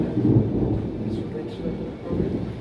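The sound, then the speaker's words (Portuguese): Rain beginning to fall: a loud, steady hiss of rain with a deep, rolling rumble underneath throughout. “Ih, tá começando a chover aqui. Tá chovendo aí?”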